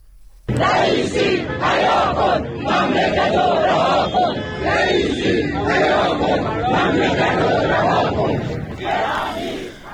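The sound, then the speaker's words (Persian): Retirees chanting slogans in unison at a protest in Kermanshah, Iran, a loud crowd of voices shouting steadily for about ten seconds with rising and falling phrases. “این بازنشستگان از جمله در کرمانشاه شعار دادند”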